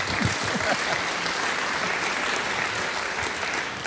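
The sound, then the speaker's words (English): Steady applause from an audience welcoming a guest speaker at the start of a new series on the Minor Prophets: dense, continuous clapping at an even level throughout, with no single voice standing out. “But let's put our hands together and welcome Jurgen.”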